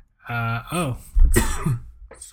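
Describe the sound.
A man coughs on food crumbs, letting out a harsh, loud burst of coughing with raspy throat-clearing around it, mixed with voiced throat noises.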